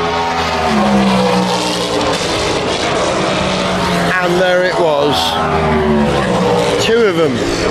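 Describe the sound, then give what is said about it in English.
Roar of a Cadillac race car driving past at high revs, with a few sharp downward pitch sweeps as cars pass. The engine noise is loud and continuous, and a voice talks over it. “so I'm not going to bed till we hear a Cadillac. Wait for it.”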